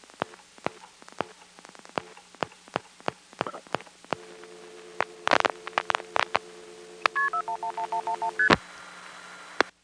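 A telephone line carries irregular sharp clicks and a steady line tone, followed by a quick run of short touch-tone dialing beeps as the number 212-411-1111 is keyed in, ending with a final click.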